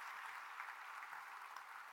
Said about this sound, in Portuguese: Quem crê, dê um aplauso a Jesus nessa manhã.